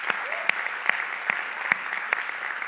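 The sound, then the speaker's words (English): Church audience applauding steadily, with a few sharper individual claps standing out at regular intervals above the dense, even clapping. “Can we put our hands together and welcome all those that might be here for the first time?”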